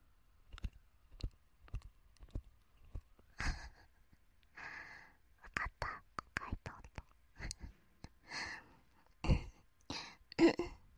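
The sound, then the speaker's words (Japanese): Tongue-tip tapping mouth sounds, a quiet, irregular run of many sharp, wet clicks and taps, with soft breathy noises between them. “舌先でトントン。トントン難しい。”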